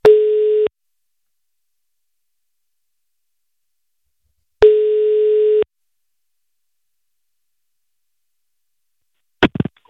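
Telephone line tone while placing a call: two long, steady, loud tone bursts with a long silent gap between them, then a short crackle at the very end.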